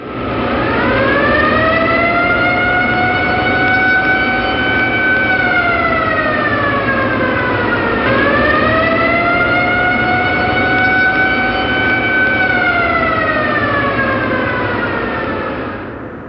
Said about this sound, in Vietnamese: tiếng còi hộ cảnh báo có máy bay tập kích thể lương khôn tả vẳng ra từ sâu bên trong